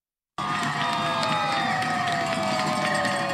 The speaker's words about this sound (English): That's the sound of teachers celebrating in Newton, Massachusetts after a deal was reached to end their just over two-week strike.